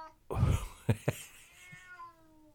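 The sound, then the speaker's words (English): A cat gives one quiet, drawn-out meow, preceded by a soft rustling noise and two short knocks. “That is a dominant meow, isn't it?”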